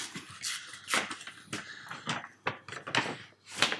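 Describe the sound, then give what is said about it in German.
A paper envelope being opened, heard as a quick, uneven string of crackling rustles and tearing bursts, fairly faint. “Ich würde diesen Umschlag jetzt öffnen.”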